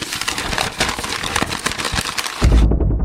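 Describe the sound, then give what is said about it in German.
A voice imitates a leaf beetle rustling through leaves: a dense, crackly rustle of mouth noises that runs for over two seconds before the sound abruptly changes. “aber so hört sich ein Käfer im Laub an. Laubkäfer.”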